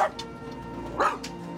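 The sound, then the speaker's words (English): Excited caged dogs, including a Jack Russell and a St. Bernard, give one clear bark near the middle, with fainter yips and whimpers around it. “The Jack Russell claws at the St. Bernard's cage door and manages to get it open. St. Bernard climbs out of the cage. The other dogs begin to get excited.”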